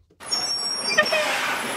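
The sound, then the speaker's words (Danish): A bus pulling in with squealing brakes: a sudden, sustained rush of hissing noise after a moment of quiet, with thin, high squeal tones running through it. “Sådan en bus, der kommer med hylende bremser, hvor man sådan tænker, skal man nu tage med den, eller skal man ikke tage med den?”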